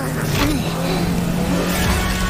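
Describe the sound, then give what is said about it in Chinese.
A cartoon vehicle revs its engine as its rear burst-charge boost fires: a steady, buzzing roar that stays level throughout, under talking voices. “猪猪侠只要控制好，只启动车尾的爆裂冲锋就好。”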